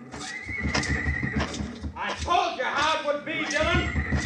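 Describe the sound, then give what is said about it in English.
A horse whinnies in a corral during a hayrick fire, a long shrill neigh followed by more agitated whinnying over a steady low thud of hooves. “Look, he's trying to ride the horse out.”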